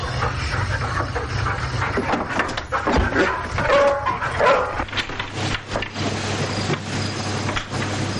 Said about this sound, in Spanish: Dentro, los perros corren a recibirle